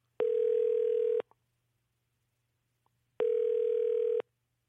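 Telephone line tones sound while a live call is placed: two steady, one-second tones at a single pitch, separated by about two seconds of near silence, with a faint click in the gap.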